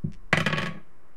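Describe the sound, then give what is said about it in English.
Dice are rolled, making a short clattering burst of quick rattling knocks that fades within about half a second. A faint soft knock comes just before the burst. “Meanwhile, I will roll the dice.”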